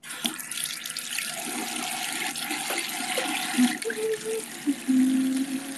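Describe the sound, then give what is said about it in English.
Water runs steadily from a tap as someone washes lotion off their hands, a continuous rushing hiss with light splashing. A few brief squeaky tones rise near the end. “Let me wash my hands really quick, because I don't want to peel an egg with lotion all over my hands.”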